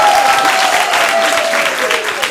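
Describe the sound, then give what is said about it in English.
Applause from a group after a participant reports 20 in a timed task: dense, continuous clapping that holds steady for just over two seconds. “Can we have a round of applause for 20?”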